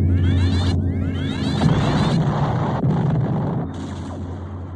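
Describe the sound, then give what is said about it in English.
Laser turret fire from Battlestar Galactica: repeated zapping blasts with falling, whooshing sweeps over a steady booming rumble, loud and continuous. “Aft laser turrets report an attacking Battlestar. Fire aft mega lasers.”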